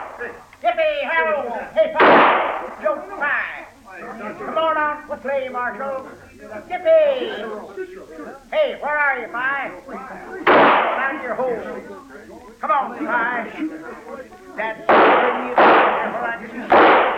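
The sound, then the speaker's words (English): Several loud, sharp gunshots ring out on a street, spread through the scene with longer gaps early and a quicker cluster near the end. Men talk between the shots. “That's enough shooting.”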